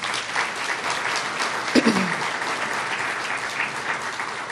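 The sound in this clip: Audience applause welcomes a panel at a morning talk on cybersecurity and online privacy. Loud, steady clapping fills the whole stretch without a break.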